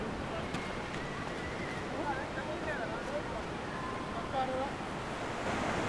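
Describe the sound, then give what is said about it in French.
Waves wash onto Yoff Tongor beach in Senegal, where large fishing pirogues are pulled up. A steady, continuous surf roar is mixed with wind buffeting the microphone, at a moderate, even loudness. “Donc, c'est ça quoi, nous sommes ici à la plage de Yoftongor.”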